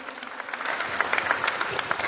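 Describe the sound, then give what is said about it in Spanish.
Applause from an audience at a 31st anniversary celebration in Villa Tunari: dense, steady clapping that holds throughout, with sharper individual claps standing out near the end. “Fuertes los aplausos y felicidades, FECANDROP.”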